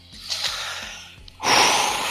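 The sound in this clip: Audible human breathing: a soft, airy breath followed by a louder, longer rush of exhaled air near the end, with no talking.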